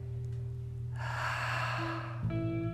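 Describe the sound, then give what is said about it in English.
A deep breath is drawn in and let out through the open mouth at the close of a meditation. It is a soft, airy rush lasting about a second over a steady, faint low tonal drone. “you're going to take a deep breath in again, and you'll open your mouth, let it go for the last time for the meditation.”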